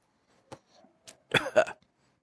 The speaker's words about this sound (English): I think we give it a retrohale here.